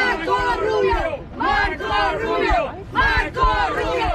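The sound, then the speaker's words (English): Cuban Americans in Miami cheering as a loud crowd, with massed voices rising in repeated, chant-like bursts and brief dips between them. “Some Cuban Americans in Miami cheered him.”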